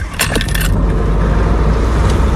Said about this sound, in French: Donc je suis dans le véhicule de patrouille avec...